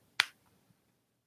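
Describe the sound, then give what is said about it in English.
A coin smacking into the palm of a hand during a magic trick: one sharp, crisp slap that decays quickly, followed by a couple of very faint tiny clicks. “No, it's the coin hits the palm and bounces off into the other hand. So it's okay. an auditory convincer ah. that the coin goes into the hand.”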